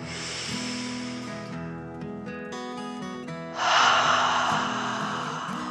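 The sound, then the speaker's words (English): A deep breath drawn in and let out, a soft hissing inhale followed after a gap by a louder, rushing exhale, with steady sustained musical tones underneath. “She took a deep dragon breath in and out.”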